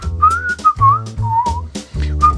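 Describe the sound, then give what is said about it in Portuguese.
A person whistles aimless, random notes in a loose, jazz-like way. Several clear, wavering tones jump between pitches without forming any recognisable tune, loud and steady throughout. “Isto não é nada, isto são notas só, feitas parvas. É tipo jazz de assobio.”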